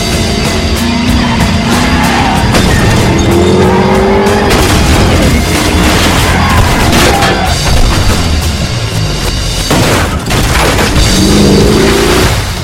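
A car roars at speed during a chase with a helicopter overhead. The loud, sustained engine noise shifts in pitch and is broken by a few sharp bangs and tire squeals.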